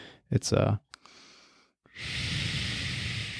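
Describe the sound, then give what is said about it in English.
Breath is pushed out through a relaxator breath training tool. It makes a long, steady, airy hiss that holds at an even level, preceded by a few shorter breathy bursts and a softer hiss. “I got a relaxator, actually, and this is what it sounds like. So you breathe in through your nose”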